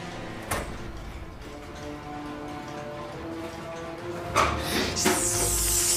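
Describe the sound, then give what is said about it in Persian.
A door being shut: a sharp knock near the start, then a few clunks and a scraping thud near the end, over a quiet, steady background hiss with no talk. “یواش بیا، در رو ببند، در رو ببند.”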